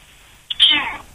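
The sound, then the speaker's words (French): A cat gives one short, bright meow that rises quickly and then trails off, clear against a quiet background. “Non, c'est un chat.”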